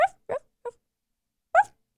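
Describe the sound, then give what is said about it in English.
A female dog barks in her sleep with a few soft, short, muffled yips. They come in an irregular rhythm with silent gaps between them. “I decided I wanted to record it. And all of the recordings I ended up getting was my dog Sis sleep barking.”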